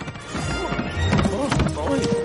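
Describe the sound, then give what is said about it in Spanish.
A horse and a donkey race at a gallop across a wooden bridge, their hooves drumming in quick, hollow clip-clops, mixed with whinnying and other busy, overlapping sound. “Sancho enfadado vuelve a mirar de reojo a Quijote y arranca al trote, luego al galope. Se entabla una absurda carrera hacia la casa atraviesan un puente de madera con Rufo y Sancho en cabeza.”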